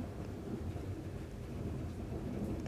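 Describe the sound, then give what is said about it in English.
Thunder rumbles low and continuously during a rainstorm, with a steady hiss of rain throughout and no clear individual cracks. “thunder. Hear the thunder?”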